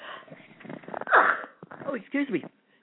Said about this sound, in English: I sneezed on it.